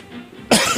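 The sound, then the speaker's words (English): A person coughs away from the microphone: a short, harsh, rough burst that breaks a moment of quiet background hum. “As I cough away from the microphone here at WMFO”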